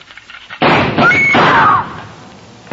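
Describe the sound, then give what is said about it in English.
Gunfire rips through a door as a radio drama sound effect: a few loud, sharp bursts merge into a sustained harsh roar that fades, then one more abrupt bang sounds at the very end. “When Susan snapped the spring lock to open the door, the gun outside opened up. The first slug caught her in the left shoulder, spinning her out of the way of the rest of them.”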